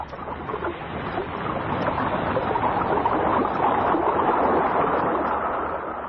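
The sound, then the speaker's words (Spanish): A ship docks at a pier in a steady, broad wash of water and low rumble that swells slightly and holds throughout. “El barco Asaula atraca en ese muelle donde Calimán ya se oculta y permanece al acecho.”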